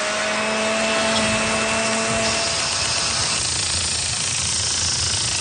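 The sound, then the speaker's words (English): Lawn mower running on a lawn on a summer Saturday: a loud, steady motor drone with a coarse, rasping noise throughout. A tonal hum sits in the first half and then drops away. No talk. “All of this for a perfectly manicured lawn. But Bill Andrews spends just a few minutes with his mower.”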